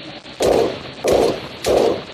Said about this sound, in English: Running out of bullets. Only have like 5 shots left.